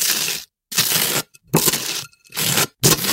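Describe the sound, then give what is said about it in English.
Butter is spread on toast in five rasping, scratchy scrapes, each about half a second long and separated by brief pauses, with a few faint ticks in between. “Spreading something on toast. Yeah, it's spreading butter on toast.”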